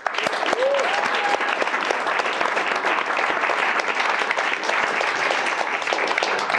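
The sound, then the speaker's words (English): Sustained audience applause welcoming a guest: dense, steady clapping that holds at an even, fairly loud level from start to finish with no pauses. “So without further ado, let's give Tim a nice welcome.”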